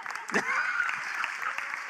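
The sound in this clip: A church audience applauds after a pastor is introduced. The clapping is soft and steady, and a voice sounds briefly over it near the start.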